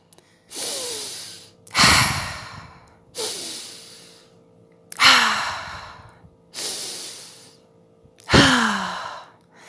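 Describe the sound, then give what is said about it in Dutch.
Three deep breaths, each drawn in and pushed back out, heard as six loud, breathy rushes of air in an even, slow rhythm with short pauses between. No talking. “En dan haal ik een paar keer diep adem, een keer of drie.”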